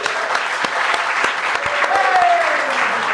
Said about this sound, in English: First of all, can we get a big hand for Tim Jazz?